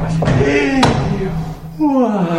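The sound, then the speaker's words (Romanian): Knocking on a castle gate, with a couple of sharp, hard thuds at the start under people talking. “Baroane, bate cineva la poarta castelului. Vezi cine e?”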